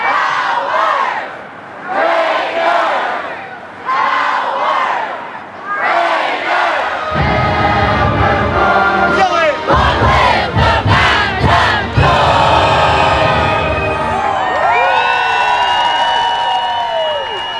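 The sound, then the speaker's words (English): A large Texas Tech crowd in Times Square bellows the Raider power cry in several rhythmic chanted bursts, then breaks into sustained, loud cheering and shouting. “It's hard to determine just how many people have shown up, but you can hear it in the Raider power cry that took over Times Square that morning.”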